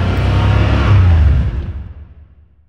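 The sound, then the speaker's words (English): A car engine revving: a loud, deep roar that holds steady for about a second and a half, then fades away into quiet by the end. “Nothing else sounds like this. You don't want to have the radio on. You need to be able to listen to that engine.”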